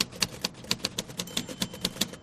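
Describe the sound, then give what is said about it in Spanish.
Keys are struck in steady, rapid typing, with many crisp, evenly spaced clacks over a low mechanical rumble. “¿Qué hace? Escribo. ¿Qué es lo que harás tú cuando golpees esas teclas?”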